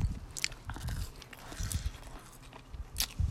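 Crunchy fries being bitten and chewed in quick, uneven bursts of crisp crackling, fairly faint, with short pauses between the chews.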